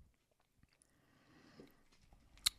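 Faint, soft chewing of a Milky Way cookie dough candy bar: quiet, irregular mouth sounds with a sharper click near the end.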